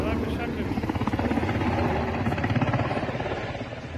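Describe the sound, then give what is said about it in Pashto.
Helicopter flying over Kabul during the August 2021 evacuation, with a rapid, steady thudding rotor chop over dense, loud engine roar throughout. “د کابل په فضا غنی هلیکوپټر ګرځي”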